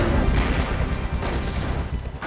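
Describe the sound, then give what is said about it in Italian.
American 105 mm artillery firing from behind the lines at enemy armored vehicles in battle, a dense, loud, continuous roar of blasts and rumble with no clearly separate shots. “Da dietro le linee, l'artiglieria americana spara sui mezzi corazzati nemici.”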